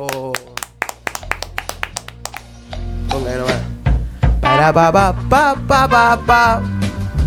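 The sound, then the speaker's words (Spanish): Studio applause: a run of sharp, separate hand claps fills the first few seconds, then people talk loudly over the rest. “El aplauso.”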